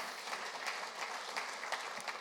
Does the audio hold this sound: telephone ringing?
no